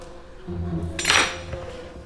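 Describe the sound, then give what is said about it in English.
Brief clatter of a knife against jars while a peanut butter and jelly sandwich is made, one bright clink rising from a steady low hum with a softer knock after it. “Take the peanut butter knife. Open the peanut butter. Put the knife in the PB. Get some jelly. Open the jelly.”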